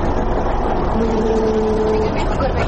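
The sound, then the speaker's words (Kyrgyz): A Caterpillar motor grader and a snow loader clear snow from the Too-Ashuu pass road. Their engines make a steady, loud diesel drone with a faint hum running through it. “Бүгүн Тоо Ашынын жолун автогрейдер кар жүктөгүч машине менен бирге тазалап жатат. Эскилиги жеткен автоунанын ролунда Жапардин Касмалиев отурат. Бул Катерпиллер Америка фирмасынынкы”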